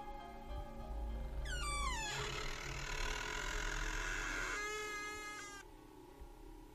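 A door creaks slowly open by itself: a quiet drawn-out creak that starts with a falling squeal, holds as a steady grinding tone, and ends with a second higher squeak before fading.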